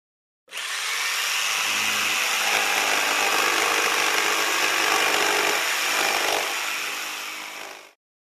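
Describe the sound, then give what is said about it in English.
A circular saw cuts through wood in one steady, loud, high-pitched whine that starts abruptly, holds for about seven seconds and then fades out. “You have a band saw, you have a circular saw, and this one makes this sound.”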